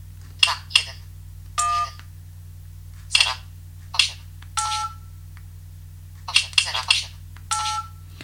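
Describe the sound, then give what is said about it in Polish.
Telephone keypad dialing tones as a number containing fives is entered: many short, bright electronic beeps at irregular intervals, some in quick clusters, over a steady low hum. “tutaj spróbujemy zadzwonić pod jeden z moich numerów 5. Kiedy oderwiemy palec, piątka nam się wbije.”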